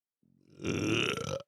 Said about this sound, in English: Did you just burp? What was that noise?